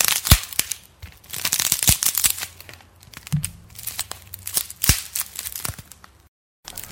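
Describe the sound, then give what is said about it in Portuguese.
A protective film being peeled and separated from a thin screen: sharp crackles and tearing rasps come in irregular bursts, loud and close, with brief pauses between, and the sound stops in a short silence near the end. “Deixa eu ver, deixa, eu separar essa película aqui pra ver,”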